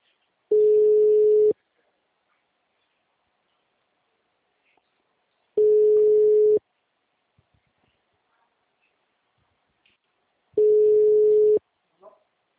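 Three identical steady ringback tones sound while a telephone call is being placed, each lasting about a second, evenly spaced with long silent gaps between them.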